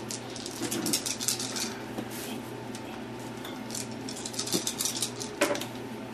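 Dice clatter across a table during a tabletop role-playing game as three extra dice are rolled for a perception check. A few sharp clicks and rattles stand out over a steady low hum, with no talk.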